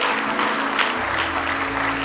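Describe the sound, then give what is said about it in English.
Congregation clapping hands in praise during a church service: a steady, dense wash of applause that holds its level throughout, with a sustained low musical tone underneath. “Oh, I'll give Him another good hand clap of praise if you love Him.”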